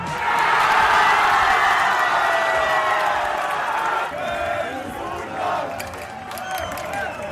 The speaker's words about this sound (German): Überall wurde gejubelt über den Sieg unserer Fußballnationalmannschaft. In Leipzig klang das dann Samstag so.